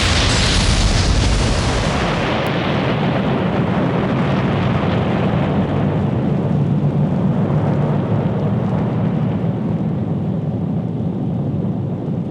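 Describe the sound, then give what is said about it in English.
Deep, continuous rumbling roar of exploding weapons of war, a dense wall of sound that stays heavy and steady throughout with no distinct separate blasts and no voices. “What you have just experienced are weapons of war from the sister world below us, Earth.”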